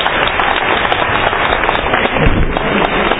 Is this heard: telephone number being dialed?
no